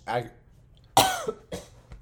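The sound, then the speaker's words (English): Harsh, bursty coughs break into a speaker's talk about football receiver rankings. A brief voiced sound comes first, then a loud cough followed by a few shorter hacking bursts. “The cough is not part of his name.”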